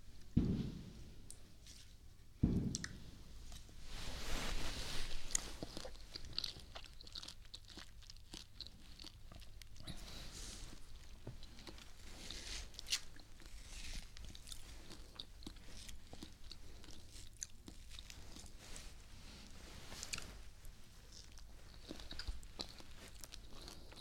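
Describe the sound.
Chewing and biting on sweet food, opening with a couple of crisp bites, then long, steady, faint mastication with soft crunches and no talk.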